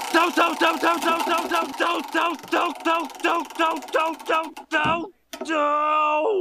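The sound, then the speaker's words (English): A spinning prize wheel sound effect: many evenly spaced, bright tonal blips repeat in a steady rhythm, then cut off abruptly before a sustained ringing tone. “let's give the wheel of random a spin to see what season we're in.”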